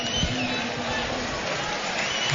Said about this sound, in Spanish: Ovación cerrada del público del nuevo colombino.